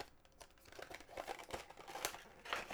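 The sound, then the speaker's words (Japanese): A package holding a cosmetic-looking item is opened and unwrapped, with faint crinkling, rustling and light tearing of wrapping in irregular bursts, a few slightly sharper crackles standing out. “じゃあ開封していきますね。”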